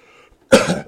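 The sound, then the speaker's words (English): A single loud, rough cough that rasps into throat clearing, from someone whose throat is clogging up, bursting out after a brief quiet stretch and lasting under half a second. “Excuse me, my throat is clogging up.”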